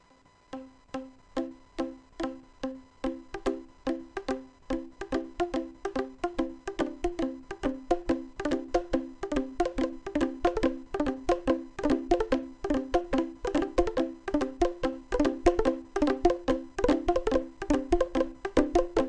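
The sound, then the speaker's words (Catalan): Boomwhacker tubes struck against a surface play a simple tune as many bright, hollow, pitched hits in a quick, steady rhythm, growing slightly louder over the passage, with no voices. “Escoltem una mica una mostra de so de com sona un Boomwaker.”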